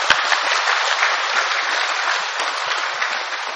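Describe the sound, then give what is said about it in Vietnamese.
Loud, sustained audience applause at a Vietnamese Buddhist community ceremony in South Korea, a dense steady wash of clapping from many hands with no pauses and no voices on top. “Hàn Quốc, xin tất cả dâng cao tràng vỗ tay thật lớn”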